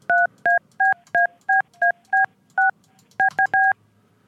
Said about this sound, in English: Okay, I'm going to call the cell phone of the supervisor.